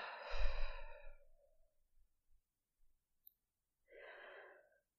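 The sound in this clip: A long breath pushed out through the mouth during a breathing exercise, starting strong and trailing off, followed after a pause by a shorter, softer breath.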